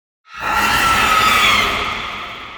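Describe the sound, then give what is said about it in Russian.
A deafening, harsh monster screech inside a crater: one high, shrill shriek that bursts in abruptly and holds loud and steady, fading only slightly near the end, with no talk. “Оглушающий визг ударил по ушам. Атака монстру пришлась не по нраву.”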